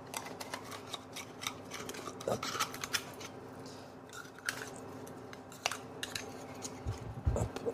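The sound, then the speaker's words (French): A knife opens oysters through the side to reach the muscle, giving faint, irregular metallic clicks and scrapes, with a few louder knocks near the end. “Moi, je vais ouvrir les huîtres de façon très simple. Il y a deux façons d'ouvrir les huîtres, c'est soit par ici, soit par le côté, on vient attraper directement le nerf.”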